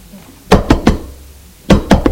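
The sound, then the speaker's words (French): Knocking on a door: two quick sets of three sharp knocks, separated by a brief pause, clear and alone with no voices. “On a frappé à la porte.”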